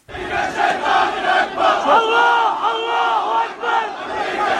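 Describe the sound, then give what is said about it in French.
A crowd of pro-Iranian militia members and supporters chants anti-American slogans at a protest in Iraq. The massed voices are loud and continuous, swelling and dipping in a rhythmic chant. “Vous entendez, ce ne sont pas des manifestants lambda, mais des membres ou des proches des milices pro-iraniennes qui scandent des slogans hostiles à l'Amérique”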